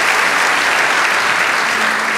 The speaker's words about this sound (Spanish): Vamos, dale ese aplauso al Rey de Reyes.